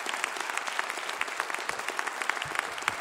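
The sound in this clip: Audience applause welcoming a singer-songwriter onto the Mountain Stage live music show: dense, steady clapping from a crowd that fills the whole stretch, with scattered sharper individual claps standing out above the wash.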